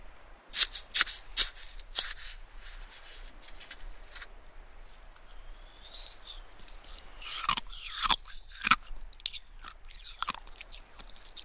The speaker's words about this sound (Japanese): 彼女が耳元でかき氷食べてるなんてさ普通ないよね。